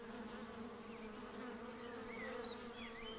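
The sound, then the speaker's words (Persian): A large colony of bees buzzes around a honey hive in a steady, faint drone that never stops, with no voices. “اما گذشتن از یک اردوی بزرگ زنبورها کار آسان نیست”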